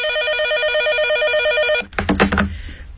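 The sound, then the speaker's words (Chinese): Home telephone ringing with a steady, bright electronic warbling ring that stops partway through, followed by a short burst of clattering, knocking noise. “这会儿功夫，肖黛丽家的电话响了起来。”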